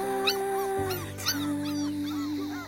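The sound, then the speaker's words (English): Puppies whimper in a kennel with high, thin whines and yips that repeat many times over a continuous low, steady drone. “Look at those puppies are still in the kennel. They're like, we want to play with the duck too.”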